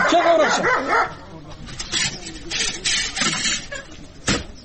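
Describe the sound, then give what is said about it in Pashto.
Dog barking at arriving guests near a house, several sharp barks in bursts mixed with people talking loudly. “دا کا سپی دی نیسه چې ومونه داړي. راځئ راځئ، نه مو داړي.”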